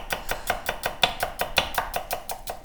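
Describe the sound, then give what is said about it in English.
A knife cuts onions on a board in many quick, evenly spaced chopping strokes, crisp and fairly loud, keeping a steady rhythm throughout. “I could listen to you cut onions all day long.”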